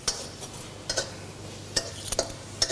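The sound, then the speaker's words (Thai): A spatula clicks and scrapes against a pan as a holy basil stir-fry with sugar and red and green chillies is tossed, a few sharp separate clicks over a faint steady background. “ผัดไปอีกสักครู่น้ำตาลละลายเราก็จะตบท้ายด้วยพริกสีฟ้าสีแดงสีเขียว”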